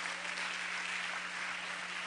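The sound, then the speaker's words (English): A church audience claps its hands to the Lord, a fairly faint, continuous wash of many hands clapping over a low steady hum. “So let's clap our hands to the Lord for the way church ought to be.”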